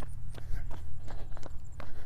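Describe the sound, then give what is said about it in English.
Footsteps climbing a hill during a workout: a steady run of soft, even thudding steps, heard alone without talk. “We are climbing up a hill.”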